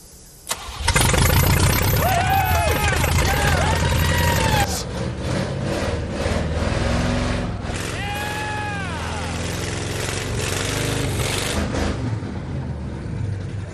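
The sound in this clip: An engine with an electrical problem is cranked and fails to start properly: a loud, rough burst of cranking for about four seconds, then a lower, sustained rattling drone to the end, with people talking over it.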